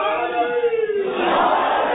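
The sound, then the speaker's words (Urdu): A crowd roars a slogan hailing Ali at an Urdu-speaking gathering: a single voice leads off, then a broad mass of voices surges in and holds strongly to the end. “ایک نعرہ ایسا لگائیں جیسا علی بلند ہے”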